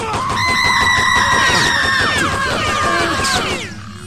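Shooting and screaming from the 1997 video game Postal: piercing yells and screams ring out over a rapid, steady rattle of gunfire, all loud and dense before cutting off near the end.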